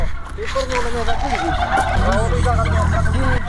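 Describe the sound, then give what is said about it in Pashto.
Turkeys gobble loudly and continuously as handfuls of corn kernels are thrown to them, many warbling calls overlapping into a dense, unbroken din. “فیل مرغانو هم د خوړو په لیدو سره شور جوړ کړي.”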